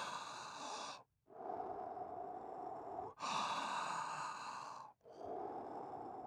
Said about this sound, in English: deep breath.